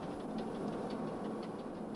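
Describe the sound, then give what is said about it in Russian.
Steady, fairly faint rumble of a daily passenger train's locomotive running, from a 1974 recording, with speed through the station stated as 100 km/h. A continuous low drone carries soft, regular clicking above it, with no voices. “23-й. Это ежедневный поезд «Юность».”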